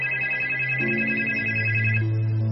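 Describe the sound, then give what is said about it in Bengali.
A telephone rings with an electronic ringtone: steady high tones over lower notes that shift a few times, moderately quiet, with no talk. “কুমুদের বাবার কথা শেষ হতে না হতেই telephone বেজে উঠল”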